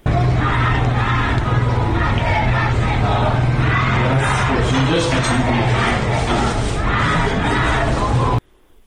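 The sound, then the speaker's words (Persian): A crowd of protesters in Shiraz loudly chants slogans in unison. The rhythmic massed shouting continues without a break before cutting off abruptly near the end. “شیراز شاید بیشترین ویدیوها رو ما داریم که معترضان دارن شعار میدن و تعدادی از اونها هم بازداشت شدن. بشنویم با هم صدای رو از شیراز.”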